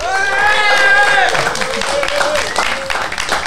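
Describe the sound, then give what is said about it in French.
A live audience makes noise on request, shouting and whooping, then clapping and cheering loudly throughout. “Et ils sont là déjà en public. Est-ce que vous pouvez faire un maximum de bruit?”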